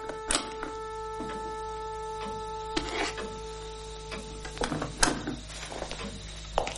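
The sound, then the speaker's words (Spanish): A key unlocking and opening the lower door of a wooden cabinet: a few sharp clicks and knocks spread unevenly over a steady low hum, with no speech. “saca una llave y abre la parte baja de un mueble.”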